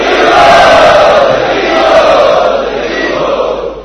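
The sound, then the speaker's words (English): Loud chanting by a large crowd welcoming guests at the Prerana festival program in Chowpatty. The sustained unison roar of many voices stays strong, then eases slightly toward the end. “Let us welcome all these wonderful guests today for our program by loudly chanting three times.”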